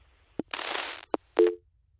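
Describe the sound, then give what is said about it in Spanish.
Telephone line noise after a dropped call: a sharp click, a short burst of hiss, a second click with a brief high tone, then one short, low, humming beep that fades out. “Nos cortó la llamada.”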